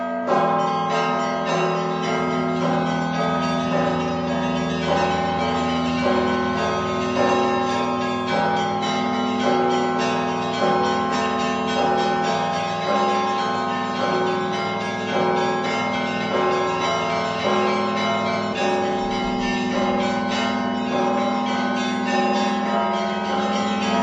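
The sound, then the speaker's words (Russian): Festive Orthodox church bells rung for Christmas by a student bell ringer: a continuous peal of many overlapping strikes, full and ringing, holding at an even loudness throughout. “А цяпер у гэтыя калядныя дні будзе, дарэчы, паслухаць слухаць звон, які так і называецца – святочны.”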